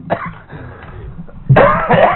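Coughing from a tickle in the throat: a few rough, throaty coughing bursts, a short one at the start and a longer, louder, more voiced one after a brief pause.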